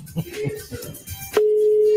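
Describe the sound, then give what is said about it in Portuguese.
Ringing tone of a telephone on a radio call-in line: a steady, flat, mid-pitched electronic tone that starts abruptly after some murmured voice sounds and holds unchanged to the end. “Tá chamando.”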